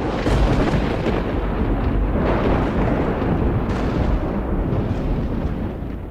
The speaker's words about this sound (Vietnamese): Tức thì tòa Nam Tào lóe lên ánh sáng, những tia lôi điện lập lòe từ trên tầng không giáng thẳng xuống con chó. Con chó lúc này ngửa mặt lên trời, hứng chịu luồng sét.